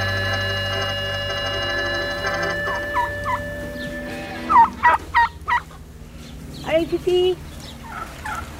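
Clucking from chickens kept on a small farm comes in a few short, throaty bursts grouped in two brief clusters. The calls sit over a steady low background hum.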